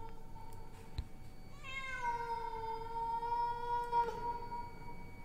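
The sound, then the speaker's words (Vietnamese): A cat lets out one drawn-out, tonal meow that holds a fairly steady pitch for a couple of seconds, clear and moderately loud above a low, steady background hum. “Trong lúc mọi người còn đang dấm dứt khóc thì tự nhiên con mèo nó lại kêu lên.”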